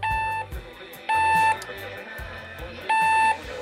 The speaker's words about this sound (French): j'ai oublié de débrancher le réveil